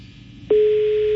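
Telephone ringback tone from an outgoing call that goes unanswered: after a low hiss, a single steady electronic tone starts abruptly partway through and holds to the end.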